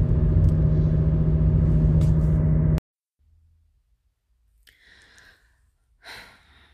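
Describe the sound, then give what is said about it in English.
Car interior rumble while driving: a loud, steady low roar for about three seconds that cuts off abruptly, followed by near silence with a few faint breaths. “I'm driving right now, so I'm trying not to look down.”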